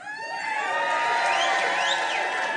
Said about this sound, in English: So we're going to have the fucking A self cheer.